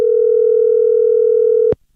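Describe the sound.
Telephone call tone on dialing a mobile phone: a loud, steady, single-pitched tone held for about 1.7 seconds, then cut off abruptly with a click and followed by silence.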